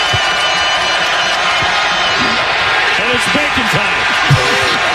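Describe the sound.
Crowd cheering and shouting at a basketball game, with children among them, as the opponent misses two consecutive free throws in the second half to win free bacon. A dense, steady roar of many voices with scattered whoops runs throughout.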